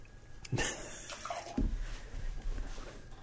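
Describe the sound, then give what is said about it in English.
Water runs and splashes as beer glasses are rinsed between IPA tastings. The gush is fairly faint and uneven, with a couple of louder sloshes, and no one speaks. “We're just washing out. Rinsing because... We don't want to cross-contaminate our hops.”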